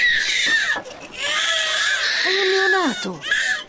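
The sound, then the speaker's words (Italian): A newborn baby, abandoned among the scraps on a market stall, cries in loud, shrill wailing bursts with brief catches between them. One long wail drops in pitch near the end. “Il bambino comincia a piangere, qualcuno tra la folla se ne accorge.”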